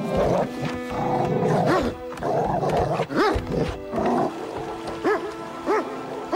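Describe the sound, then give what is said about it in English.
A dog strains against a short leash on a pier, barking through a wire muzzle in several harsh, throaty, roar-like barks with rough growling between them. “On the pier, White Fang barks through a wire muzzle and strains against a short leash controlled by Curtis.”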